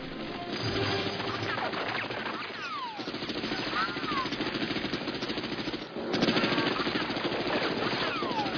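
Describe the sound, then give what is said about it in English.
Gunfire rattles from a boat in a film scene on the water, a dense, continuous stream of rapid machine-gun bursts mixed with harsh crashing hits. “Inside the boat, we really gave it to him in gunshots.”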